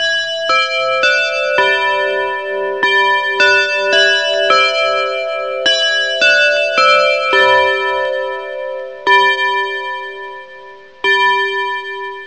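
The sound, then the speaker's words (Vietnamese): An alarm clock ringing at midnight, sounding as many bright, bell-like chiming notes in a repeating melody that rings on steadily and alone. “Một hồi chuông đồng hồ báo thức vang lên, đã là đúng 12 giờ đêm.”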